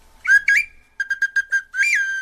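A chichtli, a Mexica whistle instrument, imitating bird calls: two sliding high whistles, a pause, a rapid run of short chirps, then a longer warbling whistle, all clear and alone.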